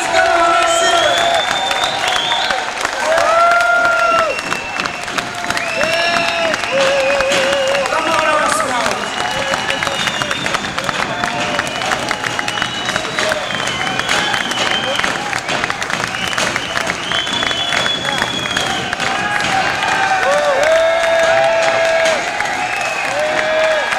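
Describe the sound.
Audience applause and cheering greet a performer coming on stage: a loud, dense, continuous wash of clapping with whoops and shouts rising through it for the whole stretch.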